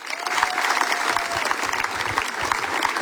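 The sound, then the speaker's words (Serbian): Applause from an audience welcoming singer Daniel Načinović on stage: dense, steady clapping that holds at an even level throughout the short burst. “pa ćemo ga teplin aplauzom i pozdraviti.”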